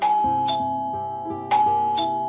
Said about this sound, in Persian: زنگ دوباره به صدا در اومد.